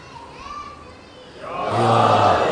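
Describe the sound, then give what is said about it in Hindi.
Children chanting the religious slogan Nara-e-Haidari at a gathering: softer voices at first, then a loud, dense burst of many young voices shouting together that holds to the end. “अब ये बच्चे भी जो नारे हैदरी बोल रहे, पता नहीं इनके माँ बाप को कितना अजर मिल रहा होगा।”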